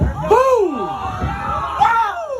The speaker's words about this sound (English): Reaction from crowds there on the ground.